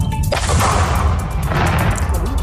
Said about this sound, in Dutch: De vliegtuigbom die bij Stationsplein in Eindhoven lag, is weggehaald en die is vanmorgen vroeg tot ontploffing gebracht op de Oorschotse Heide.